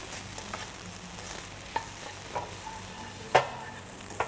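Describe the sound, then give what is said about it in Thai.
Halved cherry tomatoes are stir-fried in a pan for fried rice. A soft, steady sizzle runs throughout, and a few sharper scrapes and taps come from the stirring. “ผัดให้มีความหอมขึ้นนิดนึงนะแล้วก็ปรุงรสด้วยซอสพริกนะคะ”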